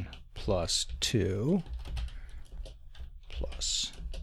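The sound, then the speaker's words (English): Typing on a computer keyboard while entering a search into the Google search bar in Firefox on Linux Mint: quick clicking keystrokes running under people talking. “if I go to the Google search bar and I type”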